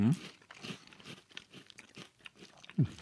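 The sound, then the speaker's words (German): Crunchy spiced caraway star crackers being chewed: many quiet, crisp crunches in an irregular rhythm, with a couple of firmer bites standing out near the start and end. “Das ist dieses knusprig, die Gewürze stimmen. Ich habe gerade mal noch ein paar rein. Diese Kümmelsterne habe ich noch nicht probiert.”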